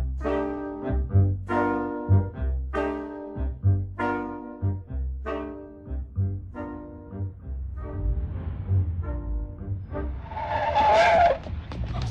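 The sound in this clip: A car skids with tires squealing as it brakes hard in a street scene, drawn-out harmonic squeals repeating over the whole stretch and ending in a harsh, noisy burst of scraping.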